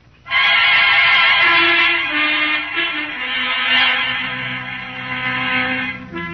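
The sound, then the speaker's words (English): A branded horse gives a loud, harmonic whinny that bursts in sharply, then wavers and gradually weakens, with lower tones joining underneath in its latter half. “They gave me a horse, all right, with the T-Bar brand on it.”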